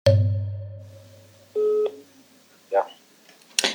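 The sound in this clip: Phone tones as a call is placed: a fading tone at the start, then a single steady keypad beep, followed by a brief rustle and a click.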